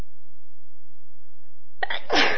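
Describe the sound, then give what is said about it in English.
A single sharp human sneeze bursts out near the end after near silence, brief and loud, with a short breathy lead-in before the main explosive burst. “a little feather up my nose, but I don't even feel as if I'm going to sneeze”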